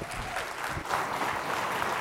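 Applause from a Baptist church audience welcoming a guest preacher on a Sunday morning, a dense, steady wash of clapping that runs evenly through the whole stretch without a break.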